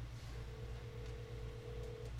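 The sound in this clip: A phone placing a call on speakerphone gives one long, steady, mid-pitched tone that holds for nearly two seconds before cutting off. It is faint over a low background hum, with no voices.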